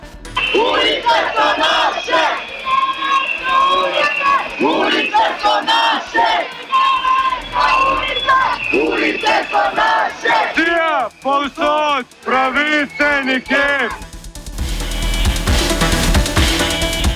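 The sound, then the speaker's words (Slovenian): A large crowd of protesters at a Friday protest in Ljubljana chants slogans against the city municipality. Loud, sustained massed voices repeat phrases in rhythmic bursts, with a sharply pulsing stretch of chanting near the end before a noisy roar. “V današnji svaštarnici se bomo posvetili geslom in sloganom, ki smo jih lahko slišali na petkovem protestu in s katerimi so zbrani glasno izražali nestrinjanje z ravnanjem mestne občine Ljubljana”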